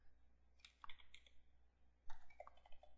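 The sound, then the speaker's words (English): Keystrokes on a computer keyboard as a password is typed: quick, bright clicks in two short bursts separated by a pause, with no voices. “We hit the enter key, and as you see, we got a password box. Now we have to type in our authentication.”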